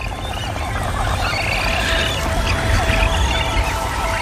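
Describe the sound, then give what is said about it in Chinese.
A hungry magnificent frigatebird chick begs for food with a continuous stream of raspy, scratchy calls over a steady, noisy background. “这只饥饿的雏鸟持续不断的起食，吵醒了它毫无经验的妈妈。”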